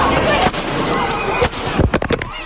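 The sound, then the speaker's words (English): Police firing projectiles at protesters trapped in a tunnel make sharp bangs: a few separate pops, then a quick cluster of shots, over dense noise and voices. “The video shows officers firing projectiles.”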